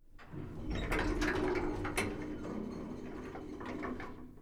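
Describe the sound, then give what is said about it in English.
An elevator running, used as a radio drama sound effect for a ride to the 98th floor: a steady mechanical rumble with light rattling clicks and whirring, holding at an even loudness, with no voices. “Guy Burkhart got off at a stop and took the elevator to the 98th floor”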